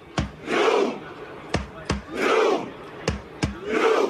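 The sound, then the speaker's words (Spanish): A crowd dressed in red in Times Square performs the Viking war cry chant: sharp unison claps, single or in pairs, each followed by a deep, loud collective 'huh' shout, repeated in three rounds with brief quiet gaps. “El U quiere decir el remo, el grito vikingo. Reman, remen, remen.”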